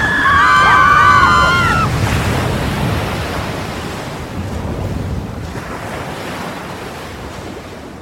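Sea waves and wind surge around a boat on choppy water, a broad roaring wash that is loudest at the start and slowly fades as it continues, with no voices.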